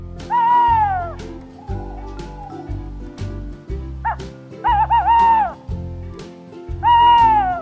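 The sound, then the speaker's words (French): Tawny owl hooting: several loud, tonal calls with rich harmonics, each sliding downward in pitch, spaced irregularly over a pulsing low drone. “La chouette-ulotte est une chouette que l'on a très proche de nous. C'est vraiment celle qui fait le ou-ou de la chouette que l'on explique aux enfants.”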